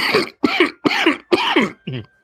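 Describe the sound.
Coughing after mead went down the wrong way: five harsh, separate coughs in a quick even rhythm, the last one softer and shorter.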